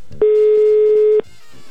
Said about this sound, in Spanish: Estoy intentando marcar.